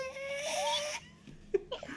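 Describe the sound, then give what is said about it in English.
A person's voice imitates a high wheeze, a thin, squeaky, strained tone that wavers and climbs in pitch for about a second, then drops to quieter breathy gasps. “you'd ramp up into a high wheeze and then people would just be like, what is going on?”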